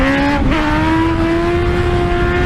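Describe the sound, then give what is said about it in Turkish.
A motorcycle engine revs hard as the rider lifts the front wheel on a road in Başakşehir, Istanbul, giving a loud, sustained whine that steps up briefly and then climbs slowly in pitch, with no voices. “Sürücü yolda bir anda motosikletin önünü kaldırarak tehlikeli bir yolculuk yaptı.”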